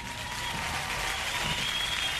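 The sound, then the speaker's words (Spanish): Sustained applause from an audience: a dense, even patter of many hands clapping that holds a steady loudness throughout, with no clear voices. “¡Aplausos, aplausos!”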